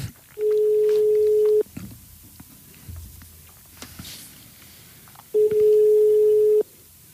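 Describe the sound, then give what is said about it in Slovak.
Telephone line tones sound while calling the fortune teller Elza: two long, steady, mid-pitched ringing tones, each a little over a second, separated by a few seconds of quiet line noise. “Takže voláme vešticu Elzu.”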